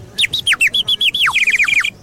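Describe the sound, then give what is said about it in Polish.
A traditional clay bird whistle toy at an Easter Monday folk fair gives many short, shrill, warbling chirps in quick succession, some notes sliding downward, loud and bird-like. “Tradycyjnie jak co roku ptaszka glinianego.”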